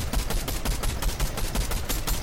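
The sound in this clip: Rapid automatic gunfire from a gun sprayed in the video game Fortnite, many loud, sharp shots in a fast, steady rhythm that continues throughout without any talk.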